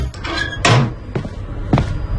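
Door of a third-floor flat being opened in the evening, heard as a few short wooden clunks and knocks in a quick sequence, alone without talk.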